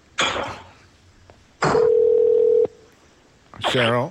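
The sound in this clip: A steady telephone dial tone lasts about a second while a caller is added to a phone call. Short bursts of voices come before and after it.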